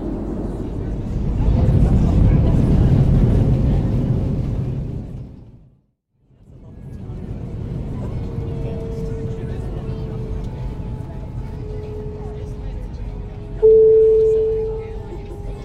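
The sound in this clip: Airliner landing as heard from inside the cabin: a broad low roar swells, fades almost to nothing for a moment, then returns as a steady rumble with thin whining tones and a short louder burst near the end.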